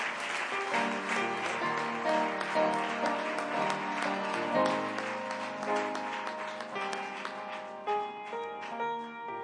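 Audience applause welcoming a district superintendent to the stage, a steady dense clapping that fills the whole clip, with sustained musical tones running beneath it.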